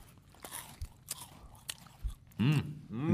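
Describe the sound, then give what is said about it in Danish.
Crisp biting and chewing of a Kvikk Lunsj chocolate bar, with a few sharp crunches spread out in irregular rhythm, followed by short voiced murmurs near the end. “Så da prøver vi den, gutta. Da tar vi en sånn. Da tar vi en quick lunch.”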